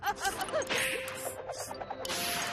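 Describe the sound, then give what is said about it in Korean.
Whooshing and thwacking hit effects mark the "Dino Power Punch" final attack in a dinosaur battle video game, a rapid string of punchy impacts and swishes with bright ringing accents. “이제 마지막 공격이야. 다이노 파워 펀치.”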